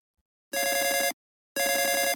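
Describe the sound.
A telephone rings for an incoming call: two trilling, bell-like bursts of about half a second each, separated by a short silence, loud and alone.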